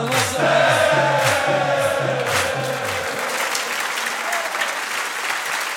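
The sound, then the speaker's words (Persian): Audience applause rises at a religious gathering chanting salutations to Imam Hussein. The steady, full clapping runs throughout, with a low rhythmic tune beneath it in the first three seconds. “دستا بیاد بالا میخوام تشویق کنیم”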